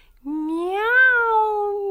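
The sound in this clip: A cat meows once in a long, drawn-out cry that rises in pitch and then slowly falls, loud and clear with no other sound around it.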